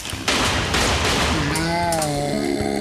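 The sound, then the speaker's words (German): Gunfire as a magazine is emptied, a few sharp, loud shots cracking over a dense noisy background, followed by a sustained wavering tonal cry in the later part. “Ich habe mein Magazin leer geschossen, aber scheint, als würden die Kugeln überhaupt nichts mehr ausrichten.”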